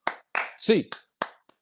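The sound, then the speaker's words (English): A few sharp hand claps in rhythm for a college basketball fan clap-along on an eight count, spaced across the moment with a voice in between. “8 to 8 clap time, baby. And 1, 2, 3, 4, 5, 6, 7, 8.”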